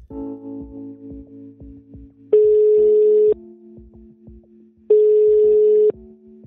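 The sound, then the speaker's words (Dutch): Ringing tone of an outgoing phone call: two steady, mid-pitched beeps of about one second each, separated by a long pause, standing out over a quieter background sound. “Dus we gaan hem bellen.”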